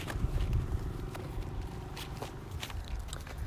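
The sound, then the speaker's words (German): Faint footsteps of people walking at a normal pace, with many soft, irregular steps over low background noise. “Run! Wir laufen jetzt normal, aber okay.”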